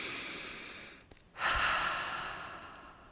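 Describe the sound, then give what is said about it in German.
Deep breathing in and out during a guided relaxation exercise: a long, airy breath, a brief quiet pause, then a strong rush of breath that swells suddenly and fades gradually, with no talking. “einfach mal ein paar Mal tief ein- und ausatmest.”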